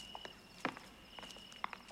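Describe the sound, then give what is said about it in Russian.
Footsteps of adults climbing steps onto a carousel: a few soft, scattered taps and knocks, quiet and irregular, over a faint steady high tone. “Взрослые по ступеням поднимаются на карусель, садятся на лошадки рядом с мальчиками и девочками.”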